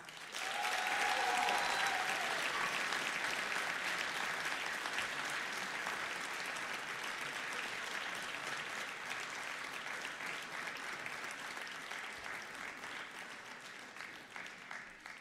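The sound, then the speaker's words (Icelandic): Audience applause for a jury panel at a competition event, beginning abruptly and holding as a dense, even patter of many clapping hands for about fifteen seconds before gradually thinning and softening toward the end. “Já, klöppum að”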